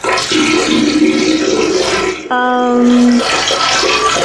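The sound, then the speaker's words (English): Tap water runs into a sink in a library bathroom, a loud, steady hiss that continues without a break from start to finish. “Does the water get any hotter than this inside the sink?”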